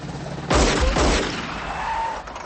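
Pistol shots are fired at a van driving straight at the shooter: two sharp, heavy cracks about half a second apart over a continuous low rumble.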